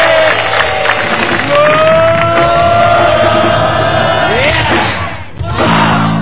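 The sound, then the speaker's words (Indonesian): A live stage-show audience cheering loudly, with shouts and whoops over clapping, a continuous loud roar that dips briefly near the end before surging again. “tepuk tangan sekali lagi ya, saudara”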